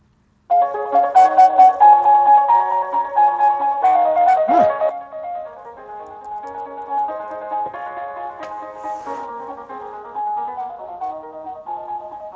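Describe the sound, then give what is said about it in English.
A fast prelude in C-sharp major, played on keyboard through little computer speakers, with rapid, bright running notes that sound tinny and thin, steady in loudness and free of talk. “So here's what the original Prelude number 3 in C sharp major sounds like. It's a pretty fast piece anyway.”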